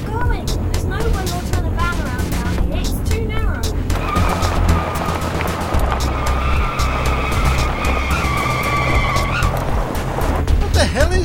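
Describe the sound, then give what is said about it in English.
A car drives along a dirt track with a steady, loud engine and road rumble throughout, and a sustained high whine runs through the middle stretch. “You're driving us down a bloody dirt track!”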